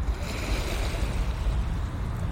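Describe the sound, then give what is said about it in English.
Gentle ocean waves produce a steady, unbroken wash of broad hissing noise with a deep rumbling undertone, holding an even level throughout without distinct crashing breakers. “The waves, the sound has become gentle.”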